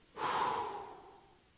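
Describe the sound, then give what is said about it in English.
A group of people exhales deeply together, one long breathy rush of air that starts abruptly, peaks early, then slowly fades away, with no talking. “Everyone just inhale as deeply as you can. And now exhale as big as you can.”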